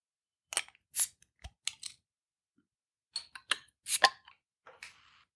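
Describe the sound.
A bottle is opened in a quiet setting with a series of short, sharp clicks and pops in two clusters, separated by a brief pause, followed by a faint crackle.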